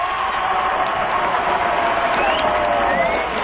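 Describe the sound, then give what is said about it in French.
A crowd ovation for a show-jumping silver medallist, a loud, dense, steady roar of cheering with some clapping mixed in, unbroken throughout. “Et là, ce sera l'ovation.”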